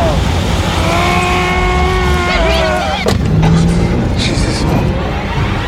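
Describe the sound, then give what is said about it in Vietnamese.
Car accelerating and speeding along a road, a loud engine with a high whining tone that builds, then a sharp burst around the middle, with talk mixed in. “Kha Lương cắn chặt răng, nhấn ga rồi phóng xe như điên trên đường.”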